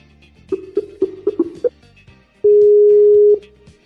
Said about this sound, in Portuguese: Vamos ligar aqui para ela no Skype.